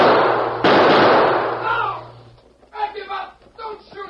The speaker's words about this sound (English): He jumped in front of me. I'll get him. Look out. Up behind that boulder. Loomis with a gun. Thanks. I see him.